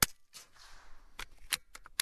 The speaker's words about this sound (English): an Ishmash, a 22 caliber Russian biathlon rifle. 50 meters away, the golf ball-sized target jitters in my front sight. I exhale, hold steady, pull the trigger.